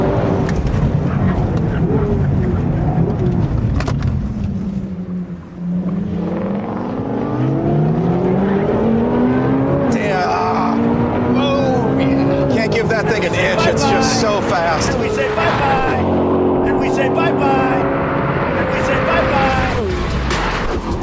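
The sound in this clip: Engines of a Corvette C8 Z06 and a supercharged Mustang GT500 roar continuously during a drag race at a drag-and-drive event, with some wheel spin at launch. The loud engine note climbs steadily in pitch and drops at gear changes.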